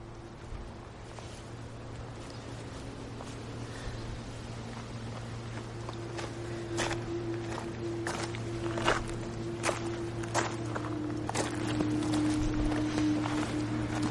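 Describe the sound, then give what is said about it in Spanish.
Horses walk away after their riders mount, their hooves making many soft, irregular thuds over a steady low hum. The steps grow a little louder and busier toward the end. “Thor se monta en su caballo y se marchan.”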